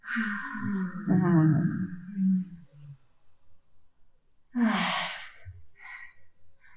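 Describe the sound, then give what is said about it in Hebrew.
Deep breathing during a guided meditation. A woman speaks, then after a pause comes one audible breath in and a breathy exhale. “קחו נשימה עמוקה, אפשר להוציא.”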